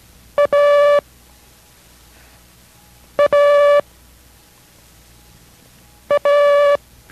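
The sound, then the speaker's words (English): Morse code for the letter A, dit-dah, sounds three times, each a brief beep followed by a longer steady tone at the same pitch, with silent gaps between repetitions. “Listen carefully again to the sound of A for able. It's dida. Listen to its sound and copy.”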